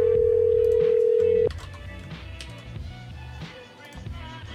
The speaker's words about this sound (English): At the end of the beep, please leave your no.